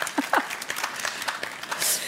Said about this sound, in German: Herzlich willkommen auch Ihnen im Publikum. Sie können gerne klatschen.